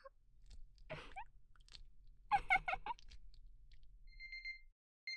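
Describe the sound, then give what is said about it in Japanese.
An electronic alarm clock goes off in the morning with a brief run of rapid, high-pitched beeps near the end, after soft, wet mouth and breathy sounds; everything is quiet and close. “もう朝？君の目覚まし時計が鳴ってる。”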